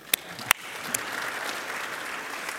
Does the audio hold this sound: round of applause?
yes

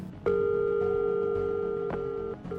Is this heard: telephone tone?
yes

